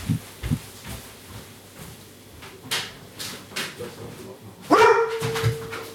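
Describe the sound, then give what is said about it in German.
A dog that reacts to certain noises gives one short, sharp bark with a ringing tone, after several seconds of quiet background with faint scattered knocks and rustles. “Hast du mich jetzt angebellt?”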